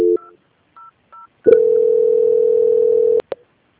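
Telephone tones during a call transfer: a few short keypad beeps come first, then a loud, steady, unbroken tone lasting well over a second, cut off by a couple of sharp clicks and a brief blip.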